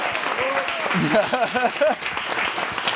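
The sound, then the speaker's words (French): Audience applause at the end of a live show, steady, full clapping throughout, with a voice speaking briefly over it. “On applaudit Valentino Vivace avec ce petit top.”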